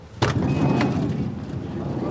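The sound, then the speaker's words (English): The sliding door of a new New York taxi cab thuds sharply, with a second lighter knock soon after, over a steady low rumble of the vehicle. “These sliding doors are nice, and so is the step is nice, too.”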